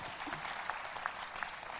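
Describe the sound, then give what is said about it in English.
Audience applause at a talk about farming and food production: faint, steady clapping that runs evenly through the whole clip with no single claps standing out. “Clap, man. Clap, clap, clap, clap, clap, clap, clap.”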